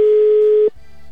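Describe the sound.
A loud, steady, single-pitched ringback tone plays on an unanswered telephone call, holding for about two-thirds of a second before cutting off abruptly to faint line noise.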